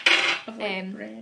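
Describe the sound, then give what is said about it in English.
A knife slices through a large Madeira sponge cake, making a few scraping strokes with a bright, ringing metallic clink as the blade meets the plate or dish. “What we're doing is we're slicing up big Madeira sponge cake because it looks like slices of like bread.”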